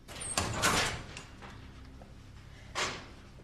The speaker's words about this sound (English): Jack turns the dial of his combination lock and quietly opens his locker.